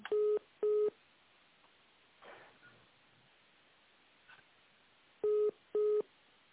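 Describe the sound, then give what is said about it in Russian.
Telephone keypad dialing tones sound as a call is transferred: two short, sharp beeps at the start and two more near the end, with only faint line hiss and a few soft noises in between. “Давайте я вас на нее переведу сейчас секундочку.”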